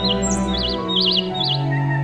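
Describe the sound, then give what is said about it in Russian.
Birdsong fills a spring forest where thousands of birds sing: bright, high warbling trills repeat several times over a continuous sustained background, with no voices. “Распустились деревья, зазеленела травка, и тысячи вымытых дождями птиц запели в лесу.”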